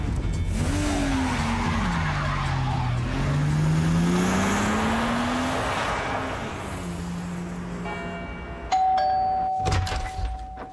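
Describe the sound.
A car pulls away hard, its tires squealing in a long wavering whine over a loud, continuous engine roar, with a brief ringing tone and clattering bursts near the end.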